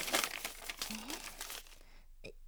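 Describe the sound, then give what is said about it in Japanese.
Paper crinkling as a love letter found in a shoe locker is opened. A short burst of rustling and crumpling fades out after about a second and a half. “俺に来た手紙だろ、勝手に開けるな。”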